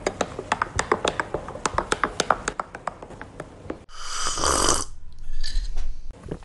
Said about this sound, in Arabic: نعم، كما تسمعون أنا أشرب قهوتي.